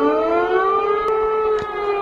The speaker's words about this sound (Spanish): Uno de ellos ha hecho saltar la sirena en Polonia.